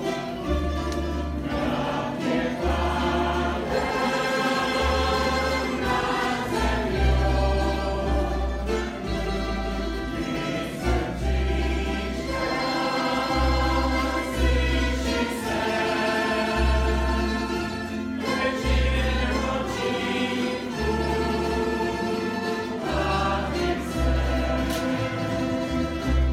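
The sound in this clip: Band music from a Women's Rights Day concert: a full, steady mix of thumping low drums and bass beneath dense mid and high instruments, playing continuously with no talk.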